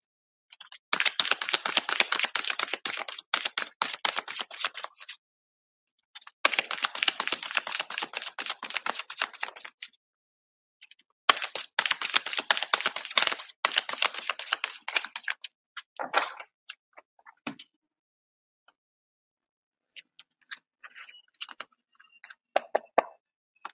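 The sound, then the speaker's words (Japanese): Advice cards shuffled and drawn: three long bursts of rapid, crisp papery flicking separated by short pauses, followed by sparse scattered taps and clicks. “それではちょっとアドバイスカード引いていきましょうね。”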